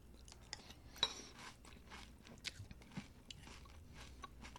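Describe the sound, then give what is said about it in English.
Fruit-flavoured breakfast cereal crackles faintly in milk, a steady stream of many tiny crisp pops and snaps with a few slightly sharper crackles standing out. “Oh, it's a little bit crackly. I don't know if you can hear that or not. It's slightly crackly. It's beautiful with milk on it.”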